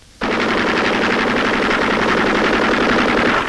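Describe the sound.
A machine gun fires in wartime combat as one loud, rapid, continuous burst of shots that starts abruptly and lasts about three seconds. No voices are heard.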